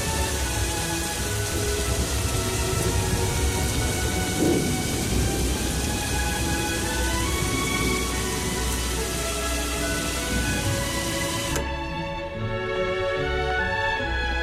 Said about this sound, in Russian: Начинается сильный дождь.